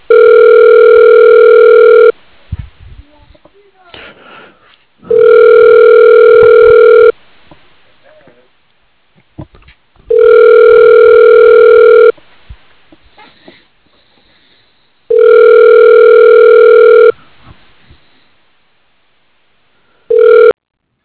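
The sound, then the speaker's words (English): A telephone line tone plays while a number is dialed: a steady, buzzing hum lasts about two seconds and repeats roughly every five seconds. It sounds four times in full, then a short fifth burst, with faint noises in the gaps. “Okay, dialing.”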